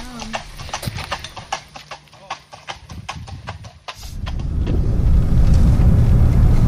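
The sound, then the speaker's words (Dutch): Horses' hooves clip-clopping on a road as riders at a fox hunt approach, a quick, bright, irregular patter of many hoof strikes that gives way to a rising rumble of a passing vehicle, with voices talking. “We staan geparkeerd langs de weg en we zien de ruiters aankomen.”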